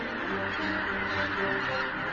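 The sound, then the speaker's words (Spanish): Flock of geese honking while foraging for food in Poland: dense, overlapping calls form a continuous, steady chorus with no break or pause. “Inmensas bandadas de gansos en busca de alimentos llaman la atención del depredador alado más grande de toda Polonia, el pigargo europeo.”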